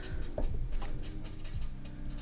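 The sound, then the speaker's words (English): Pen scratching on paper as something is written down: a run of soft, irregular scratchy strokes, with no talk over it. “Have to write this down”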